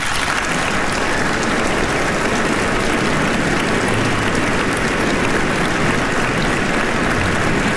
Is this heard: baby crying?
no